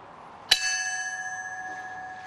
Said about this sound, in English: Bells tolled at Ground Zero and at the Pentagon.